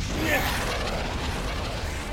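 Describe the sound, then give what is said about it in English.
A cartoon rocket booster fires with a dense rushing roar that holds at a fairly even loudness for about two seconds. “Don't worry, rocket booster activated.”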